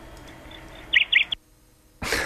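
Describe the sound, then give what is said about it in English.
A bird chirps over a telephone line: a few short, high chirps ring out above a low, steady line hum. The line then drops to near silence before a loud burst of hiss. “Did you hear that bird chirping at the very end there?”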